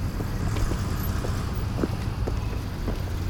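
A car pulls up to pick someone up, its engine giving a steady low rumble with road noise running throughout and no voices.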